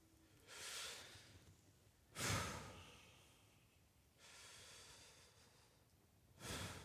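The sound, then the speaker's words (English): Deep, slow breaths taken in silence: a few breathy, hissing inhales and exhales, soft and airy, with quiet gaps between them and no talk. “We're going to take three huge breaths. So breathe with me, okay?”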